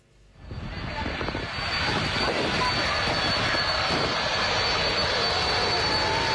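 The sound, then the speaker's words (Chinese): An airplane taking off: engine roar swells quickly over the first second or so, then holds as a loud, steady, rushing drone with a thin whine on top. “从荷兰首都阿姆斯特丹起飞，一路向西向南，历时八个半小时，还可以降落在荷兰的领土。”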